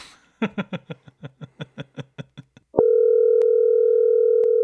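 A telephone number is keyed in as about a dozen short, evenly paced touch-tone beeps. A steady, continuous dial tone then sounds loudly until the end.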